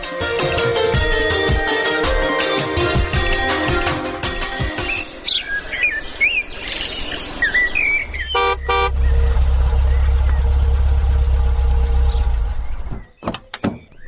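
A car engine idles as a steady, loud low rumble lasting several seconds. It follows a stretch of chirping birds and bright tones, then cuts off abruptly near the end.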